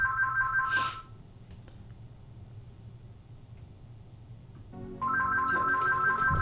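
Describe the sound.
An electronic telephone ringtone signals an incoming call: a bright warbling two-tone ring plays for about a second, falls silent over a low steady hum, then starts again and keeps ringing to the end.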